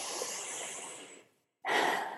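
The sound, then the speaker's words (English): A deep breath: a long, airy inhale of about a second, a short silent pause, then a strong, breathy exhale. “Caught myself. Take a breath.”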